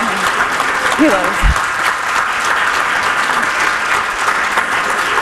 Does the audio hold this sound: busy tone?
no